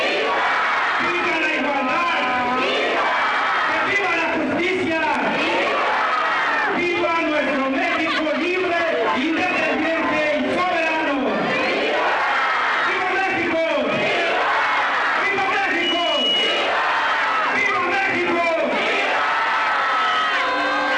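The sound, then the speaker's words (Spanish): A large crowd cheers and shouts at a Mexican Independence night celebration, with loud, continuous roaring broken into repeated rhythmic bursts of unison shouts and whoops. “Luego se vino la gala de pirotecnia y los vítores del público que estuvo presente en esta noche mexicana.”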